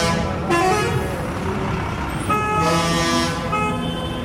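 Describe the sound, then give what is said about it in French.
Car and truck horns honking in Indian street traffic, a few overlapping tonal blasts of different pitches sounding over a constant, loud traffic rumble. “C'est un vacarme permanent parce que en Inde, on conduit à l'œil, c'est-à-dire qu'on regarde devant, et à l'oreille. C'est-à-dire que on signale sa présence aux autres chauffeurs.”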